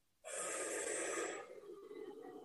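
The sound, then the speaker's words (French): One long, deep breath is taken during a guided breathing exercise. It starts abruptly, holds full and steady for about a second, then thins into a softer, airy tail. It is faint and heard alone. “on fait une grande inspiration”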